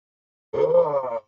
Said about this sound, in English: it's right as he yawns and makes dad noises